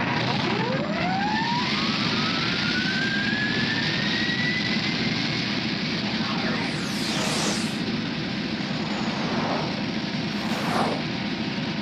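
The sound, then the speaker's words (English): Spacecraft super thrusters fire as a steady, loud roar. A high whine sweeps upward early on, and brief whooshing sweeps cut through later. “And super thrusters go.”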